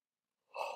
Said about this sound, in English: big yawn. I yawn more than anyone.